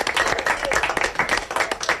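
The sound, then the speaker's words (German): Applause at a university of applied sciences as staff watch a satellite launch: dense, continuous clapping from a group that stays fairly even in loudness for the whole stretch. “Applaus gibt's aber eben auch zwindisch in der Fachhochschule.”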